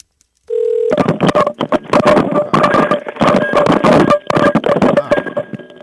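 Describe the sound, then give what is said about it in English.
A telephone dialing an outgoing call to Seattle: a short steady dial tone, then a loud run of many quick touch-tone beeps in irregular bursts. “Get our outgoing line and see what Kyle is up to.”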